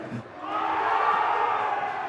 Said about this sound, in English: I feel like I make a point and they cheer, and it boosts my ego.